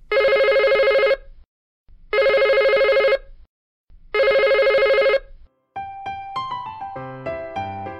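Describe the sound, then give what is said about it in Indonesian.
Telephone bell rings in three loud, even bursts of about a second each with short gaps, then a brief bright melodic ringtone tune of quick stepping notes plays, used in a children's listening game. “Dengarkan sekali lagi dering telepon berikut ini ya.”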